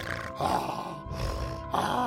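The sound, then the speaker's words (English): A voice imitating a dragon breathing with a cold: rough, congested, gravelly breaths, four drawn-out wheezy pulls and pushes with a raspy grunting edge, loud and continuous. “What if it's got an icky cold? Then it would be breathing like this.”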